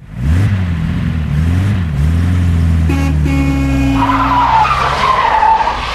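A car accelerates hard with a revving engine, followed by a short, steady horn-like blast and then a rising screech of skidding tires.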